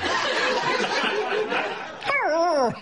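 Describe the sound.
A terrier lets out a drawn-out yelping bark that falls in pitch, coming after a stretch of chattering voices and laughter.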